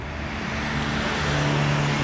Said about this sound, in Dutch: Hier ruist het verkeer onderdoor. En dit is het geluid van de Maastunnel.